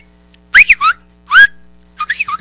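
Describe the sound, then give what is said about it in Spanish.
Human whistling used as a family's characteristic call to a father: a few short bursts of clear, high whistled notes that slide up and down, separated by brief pauses. “Bueno, ¿cómo le silba a su papá el silbido característico que tiene usted?”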